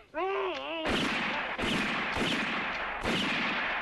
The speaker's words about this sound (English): You didn't need to shoot him four times.